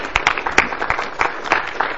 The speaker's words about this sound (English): Let's give Matthew a round of applause, a good thank you.